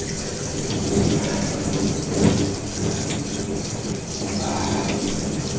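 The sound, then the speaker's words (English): Shower water streams steadily while conditioner is rinsed out of hair, a constant hissing spray with slight surges and splashes throughout. “I'm rinsing out the conditioner now.”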